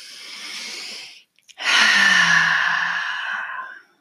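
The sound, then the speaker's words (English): Deep breathing during a guided group relaxation: a soft breath, a brief pause, then a longer, louder breath that tapers away, with no talking. “Let's all take a deep breath together.”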